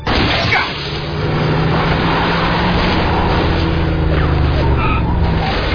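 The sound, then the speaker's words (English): A police officer's car engine runs loud and steady as the car is driven closer to an injured officer, a continuous rumbling drone that dips briefly near the start. “I'm going to bring my car closer so I can evacuate the injured officer.”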